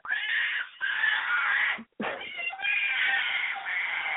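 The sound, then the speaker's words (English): A toddler screams in long, high-pitched, strained wails, loud and sustained, broken by a brief gap near the middle before the screaming resumes. “Excuse the screaming toddler.”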